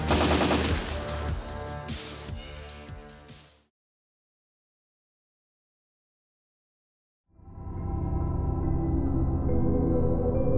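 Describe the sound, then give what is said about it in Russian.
Automatic rifle fire rattles in a rapid, dense burst for a few seconds, then fades out. Silence follows, and a loud sustained droning tone then sets in. “Кто-то из черепков, заметивший бандита, открыл огонь из автомата.”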